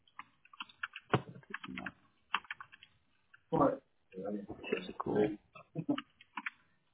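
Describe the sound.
Typing of notes on a computer keyboard during a phone call, with quiet bursts of keystrokes broken by short pauses.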